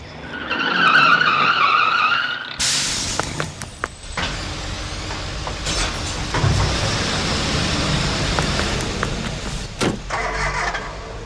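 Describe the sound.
A bin lorry collects a wheelie bin: a warbling warning tone gives way to a loud burst of mechanical roar and clatter, then continuous grinding and rumbling to the end.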